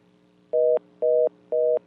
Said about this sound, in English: Hey, caller, hit me back. Either you run out of minutes or your phone dropped, but I could wait for you to call me back.